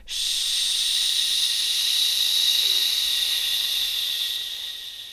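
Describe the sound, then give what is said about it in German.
A long, gentle exhale with a soft "sh" hiss during a guided breathing exercise, drawn out steadily and evenly for several seconds before fading slightly at the end. “langgezogen, zart von unten nach oben mit einem Sch ausatmen.”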